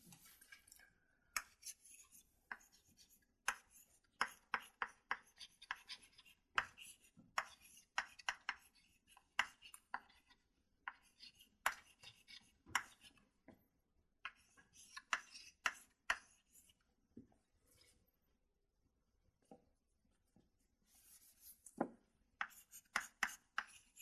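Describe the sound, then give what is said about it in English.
Writing out an equation makes many faint, sharp taps and scratches. They come in an irregular rhythm, quiet and alone, with stretches of near silence between clusters. “let me write this”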